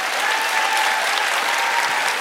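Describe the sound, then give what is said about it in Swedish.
An audience applauds steadily, a dense, even wash of many hand claps held at a constant loudness throughout, with no voices. “En applåd för Elinor.”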